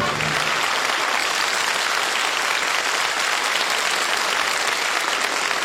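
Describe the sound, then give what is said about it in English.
A crowd cheers and applauds at the St. Patrick's Day Parade in Manhattan. The clapping is dense and constant, with cheering mixed in, and stays loud throughout without a break. “Decked out in green, cheered as the St. Patrick's Day Parade, the world's oldest and largest, marched in Manhattan.”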